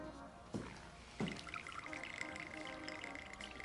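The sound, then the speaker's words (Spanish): A bartender pours another drink into a glass at a bar, with two sharp clinks followed by a faint, trickling pour over a low background murmur. “El camarero le sirve otra copa.”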